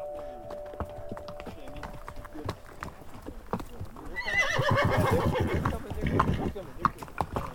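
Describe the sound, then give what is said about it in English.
Horse ridden on horseback through New Mexico's Gila Wilderness: faint, steady hoof clicks, then a long, loud whinny with wavering pitch in the second half, with hoofbeats continuing to the end. “This is what it sounds like to explore New Mexico's Gila Wilderness on horseback.”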